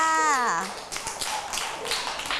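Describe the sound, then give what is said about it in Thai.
A child's voice is heard briefly, then a group of children claps for a classmate who answered a question: many quick, uneven hand claps at moderate loudness, with light chatter underneath. “เอาปรบมือให้กับน้องมะลิหน่อยค่ะ”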